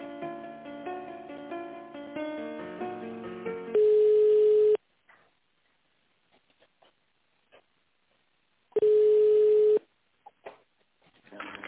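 Telephone line tones while a call is being transferred: tinny hold music plays first, then two long, steady beeps about five seconds apart, separated by near silence with a few faint clicks.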